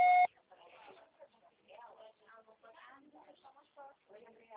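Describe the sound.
A short, loud voicemail tone sounds at the very start after the mailbox greeting, then soft voices talk quietly for the rest.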